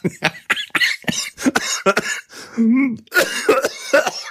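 Coughing after swallowing the wrong way: many sharp, irregular coughs in a rapid fit, broken by a brief strained, voiced groan before more coughing.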